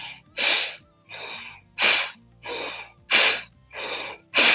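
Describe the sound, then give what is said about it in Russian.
Sharp breaths taken during a yogic breathing exercise done with bandhas and driven by the abdomen: seven loud, forceful bursts of air in a steady rhythm, each with a quick onset and short gaps between them, and no talk. “то есть резкий такой вдох, и это здесь работает живот также.”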